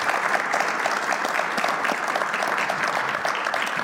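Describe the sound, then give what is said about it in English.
Steady applause from an audience congratulating a woman after she shares a personal story. Dense clapping holds at an even, full level from start to finish without a break. “Give her a big hand.”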